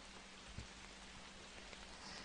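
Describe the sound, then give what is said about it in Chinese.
Soft, steady rain makes a continuous, faint hiss of even patter, with no voices and no clear change from start to finish. “虽然下雨了，但是我在，不会冷的。”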